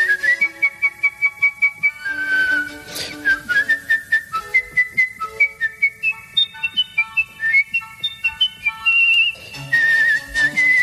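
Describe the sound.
A person whistles a melody from Mozart's The Magic Flute, an agile line of bright, high notes with quick runs, leaps and trills. The whistling is loud and heard alone.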